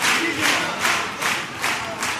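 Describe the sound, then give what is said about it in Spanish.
An audience at the Gran Teatro España cheering and celebrating after a pasodoble, a loud, sustained roar of many voices that swells in repeated waves. “Mira, mira el público del Gran Teatro España, cómo lo agradece y lo celebra.”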